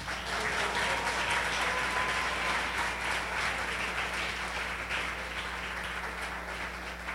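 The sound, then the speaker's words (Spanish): Audience applause during a sermon, a steady, sustained wash of many hands clapping at moderate level, with no voices over it. “Denle un aplauso a Jesús.”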